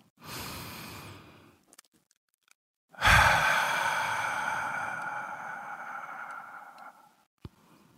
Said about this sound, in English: So, if you're ready, let's take a deep breath.